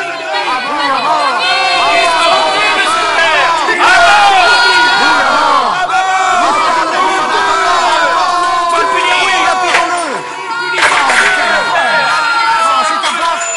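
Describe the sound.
An angry crowd shouts and roars, many voices yelling together in a loud, continuous, surging din that dips briefly and swells again.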